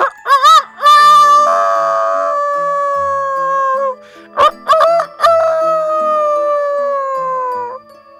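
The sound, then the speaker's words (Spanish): A rooster crows at dawn, twice: each crow opens with a few short choppy notes and then holds a long, loud, harmonic tone that sags slowly in pitch, with a short gap between the two crows. “Al despertar el alba, según su costumbre, el gallo cantó.”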